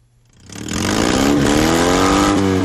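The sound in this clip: A Fiat 126p small car engine revs at an annual rally. It has a stock 650 cc, 24 hp engine and a modified muffler. Its loud buzzing drone swells in after half a second and holds steady, with its pitch climbing gradually.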